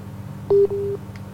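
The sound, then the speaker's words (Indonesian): A busy tone sounds after a phone call is cut off: two short, steady, mid-pitched beeps in quick succession, the first louder, over a low constant hum. “terputus ya teleponnya. Silahkan diulangi lagi untuk menghubungi kami.”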